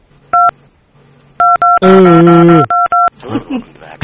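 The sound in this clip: Telephone keypad touch tones sound as about five short, loud beeps in quick pairs and singles, with a brief voice between them and more voice at the end.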